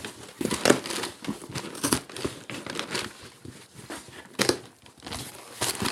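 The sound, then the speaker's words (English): A greeting card envelope is opened with repeated paper crinkling and rustling, broken by a few sharper tearing bursts. The irregular crackles continue throughout with no voices heard. “Thank you for sending us a card. This is really sweet. Open this one.”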